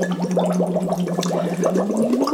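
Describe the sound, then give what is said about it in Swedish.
Bubbling water fills a pause, a continuous burbling with a steady low hum running through it that rises slightly near the end. “Okej, nu är det paus för bubblande.”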